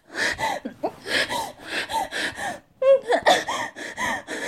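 Heavy, gasping breaths in a rapid, uneven series, each inhale and exhale strained with a wheezy, voiced edge and an occasional snort.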